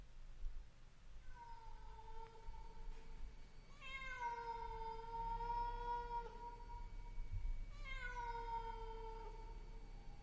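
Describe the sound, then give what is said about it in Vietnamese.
A cat meowing mournfully at night in the countryside: three long, drawn-out wailing cries, each holding a steady tone before trailing off, faint and alone against a quiet background. “văng vẳng trong không gian, có tiếng con mèo kêu lên, nghe thê thiết.”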